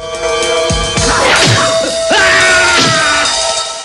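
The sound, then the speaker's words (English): A kick to the chest in a fight scene lands with heavy, loud thwacks, mixed with pained grunts and strained cries that carry on afterward. “Lee kicks Han square in the chest.”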